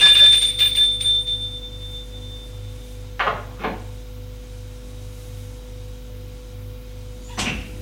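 A doorbell rings at a home, bright high chime tones fading out over about a second, followed by a few sharp, isolated clicks over a low, pulsing background hum.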